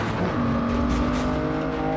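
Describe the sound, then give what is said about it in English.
An Aston Martin's engine roars as the car recovers from a spin on the road and speeds away: a loud, steady, droning motor note with a sustained tone throughout, no voices. “Bond brakes hard, causing the metal to rip his door off and sending the Aston spinning down the road in front of the truck. He regains control and speeds off.”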